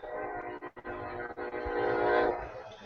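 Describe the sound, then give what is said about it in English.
A freight train at a robotics factory, heard faintly as a steady, harmonic horn-like drone over low rumble, with a couple of brief dips before it swells slightly near the end. “And a train. And I heard a train.”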